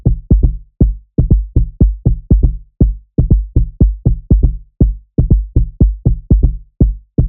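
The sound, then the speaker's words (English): A drum backbeat, generated with sampling software to sit under percussion loops, plays many deep, muffled thumps in a steady repeating pattern, often in quick pairs, with the highs rolled off and nothing else sounding. “Using Flesh, I quickly generated a nice backbeat for these two percussion loops. It sounds like this.”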